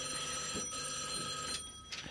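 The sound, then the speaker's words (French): A telephone bell rings steadily for about two seconds, bright and continuous at a moderate level with no pauses. “Un téléphone, peut-être que c'est Daniel qui nous appelle pour dire où elle est perdue.”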